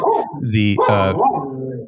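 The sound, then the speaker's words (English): A pet dog barks and yelps loudly with a harmonic, whining tone, its calls running together over the whole moment alongside speech. “we got another guest, I think. Sorry, that's my dog.”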